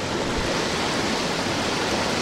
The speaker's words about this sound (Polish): To, co właśnie słyszymy, to dźwięk wydobywający się z wanny do hydromasażu, których jest tutaj rzeczywiście wiele.